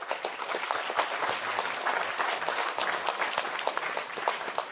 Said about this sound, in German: Aber ich würde sagen, einfach mal für diese geniale Idee von mir einen Applaus.